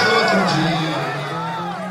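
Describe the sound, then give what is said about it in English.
A crowd of thousands of supporters shouts and cheers as they carry former Brazilian President Luiz Inácio Lula da Silva through it, overlapping voices calling out loudly in a continuous roar. “That's the sound of supporters carrying da Silva through a crowd of thousands earlier in the day.”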